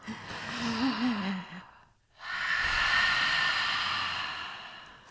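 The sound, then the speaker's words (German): A deep breath in and a long breath out, taken back to back, loud and alone with a brief silent gap between them. The first breath carries a faint wavering voiced tone, and the second is a broad, steady rush of air that fades at the end. “Und ausatmen. Wir haben beides gemacht, das gleich hintereinander.”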